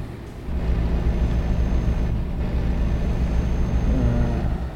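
A car being driven along a road in Spain, with a steady, loud low engine drone and road rumble that hold constant throughout.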